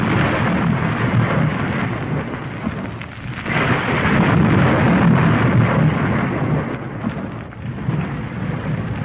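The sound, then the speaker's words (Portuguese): Thunder and a deep, continuous rumble, like a great earthquake, rolling on without a break. The noise is loud, dense and steady, with a rain-like hiss over the low roar, briefly easing before surging again. No voices are heard. “E logo se fizeram trovões e estrondos e relâmpagos e um grande terremoto.”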